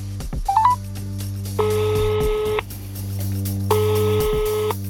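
A telephone call being dialled: a brief burst of stepped keypad beeps, then two long, steady ringback tones over a constant low hum.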